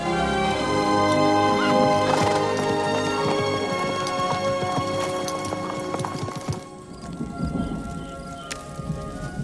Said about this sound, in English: They continue their journey on horseback, passing over sandy and rocky terrain.